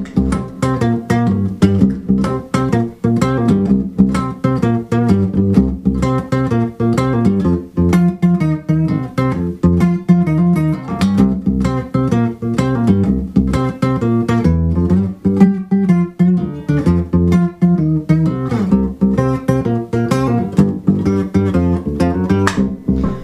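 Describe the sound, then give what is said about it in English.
Electric guitar playing a blues progression in the key of C through a bass octave pedal, giving a deep, thick tone; steady rhythmic picked notes and chords run continuously and loud, with no voices. “I'm going to put my little bass octave pedal on, and it'll sound like this.”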